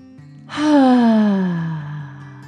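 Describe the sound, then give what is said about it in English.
A human voice imitates a dragon's deep breath in and out: a faint intake, then one long, loud, voiced sighing exhale whose pitch slides steadily downward before fading away. “the dragon took a deep dragon breath in and out.”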